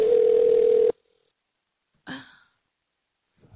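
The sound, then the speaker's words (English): A landline telephone ring tone: one steady, fairly loud electronic burst just under a second long, then silence and a brief soft rustle. “Why does he keep ringing? This is the landline.”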